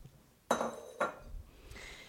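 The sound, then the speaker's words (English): Metal clanks of a utensil against a pot as Rice Krispies are stirred into melted marshmallows: a few sharp knocks, each followed by a brief scrape, with no talk. “we stir in the Rice Krispies. In go the Rice Krispies.”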